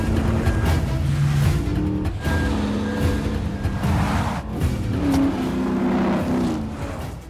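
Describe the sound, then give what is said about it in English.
A Jeep's engine roars as it speeds along a muddy dirt track, loud and continuous, revving and shifting in pitch over several seconds with no pauses. “Grimly, he rallies the Jeep through the muddy sight, narrowly missing a massive earth mover.”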